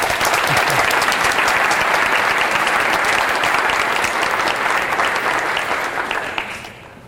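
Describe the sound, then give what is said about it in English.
Audience applause welcoming a speaker to the stage, a dense, sustained burst of many hands clapping that holds steady for several seconds before tapering off at the end. “So please give me a hand in welcoming Mr. Lawrence Weinstein.”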